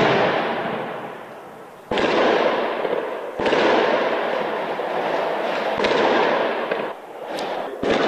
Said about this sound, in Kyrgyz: Рейдтин жүрүшү ок атуучулар жана жардуурлар менен коштолду.